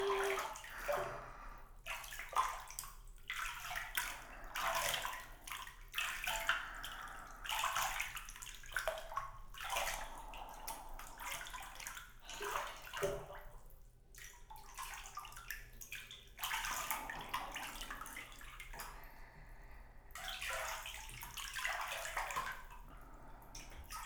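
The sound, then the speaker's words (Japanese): Steady running water rinses off a person's head, a continuous splashing hiss that surges and dips unevenly with a few brief lulls, with no talking. “ちゃんと洗い流しましょうね。”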